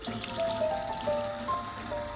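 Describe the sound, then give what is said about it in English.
Water runs into a small bucket being filled, a steady rushing, splashing trickle with faint ringing tones over it, continuous and moderately loud throughout. “then went to fill a small bucket of water”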